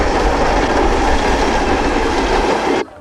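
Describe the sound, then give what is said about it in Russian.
A train speeds along at night, giving a loud, steady roar of rumbling wheels and rail clatter that runs unbroken and then cuts off sharply just before the end. “Вид снаружи, ночь, мчится поезд.”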